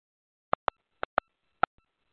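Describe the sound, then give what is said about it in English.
Telephone keypad tones sound as a code is entered for a private conference room: five short, sharp beeps in an uneven rhythm on a silent line, followed by a faint click. “Please enter the 3-digit room key to enter the private conference room.”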